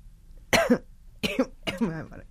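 Coughing from someone with a cold: three raspy, partly voiced coughs. The first stands alone and the last two come close together, fairly loud against near quiet.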